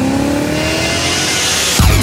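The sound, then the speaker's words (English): A new BMW with automatic transmission accelerates in a steady, loud engine roar with slowly rising pitch, then shifts gear near the end, dropping to a lower tone. “The new BMW Automatic, the ultimate driving machine.”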